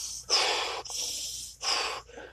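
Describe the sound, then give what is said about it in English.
Heavy, deliberate breathing from a man calming himself: a few forceful, breathy inhales and exhales with a snorting, gasping edge, fairly quiet, with no speech. “it's just a lot of heavy breathing,”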